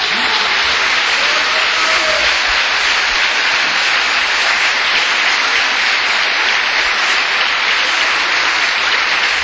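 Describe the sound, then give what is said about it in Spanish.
Congregation applause during a church sermon: loud, dense clapping from a large crowd, continuous and steady for the full stretch with no pause or fade. “Damos un aplauso.”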